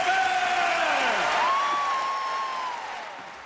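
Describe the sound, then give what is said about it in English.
Audience applause after a bagpipe performance: a steady wash of clapping holds throughout, with a wavering, sliding pipe tone ringing over it before both slowly fade. “Give them an enormous applause for world-famous Australian”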